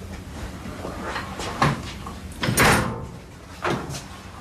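A heavy safe door is opened with a few dull clunks and a longer grinding, scraping sweep of metal, then a final thud. The sounds are fairly loud and no one speaks.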